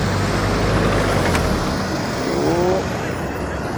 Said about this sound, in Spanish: Ah, hay tráfico acá, hoy día.